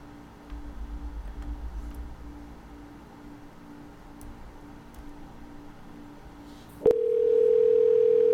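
A telephone call's ringing tone over the line: after quiet line hiss and faint ticks, a sharp click gives way to a loud, steady electronic tone that holds unbroken to the end.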